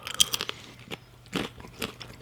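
Crunching and chewing on spelt wholemeal crackers: crisp, crackly bites in quick irregular bursts, with a few sharper, louder crunches partway through and no talking.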